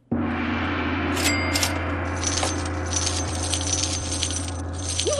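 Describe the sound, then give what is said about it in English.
Cutting a deck of prosperity cards: a couple of brief, crisp papery snaps near the start, set against a steady low hum, with no voices. “All right, I just cut the deck.”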